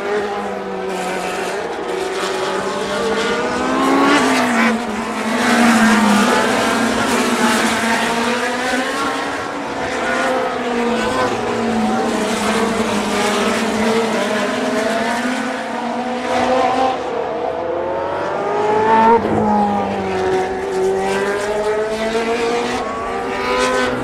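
A race car engine brakes into and accelerates out of a chicane, then climbs a straight through trees. Loud, whining revs fall and rise several times in a sustained run without voices.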